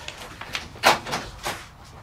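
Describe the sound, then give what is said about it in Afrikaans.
A cupboard door being opened: a few short, faint knocks and rubs, with the loudest scrape near the middle and quieter bumps after it. “Kas hier staan. Oop.”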